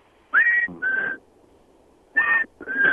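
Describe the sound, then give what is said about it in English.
A person whistles an imitation of a black-capped chickadee's song: four clear whistled notes in two pairs separated by a pause, each pair a slightly higher note followed by a lower one, with no other sound. “that sounds like it might be a black-capped chickadee, which is a two-note song. It's actually three notes.”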